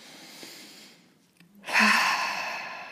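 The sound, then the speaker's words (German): A deep breath drawn in during a calming breathing exercise: a long, breathy rush that swells after a brief quiet gap and then fades slowly. “Also atme vielleicht einfach mal ganz klassisch so dreimal richtig tief ein. Ja, ich mache das jetzt einfach mal.”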